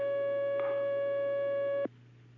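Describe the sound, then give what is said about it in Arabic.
A telephone line tone on an incoming call sounds as one steady, unbroken beep that is cut off abruptly after nearly two seconds, leaving a faint low hum. “نعم، سؤال على الهاتف معنا الشيخ محمد.”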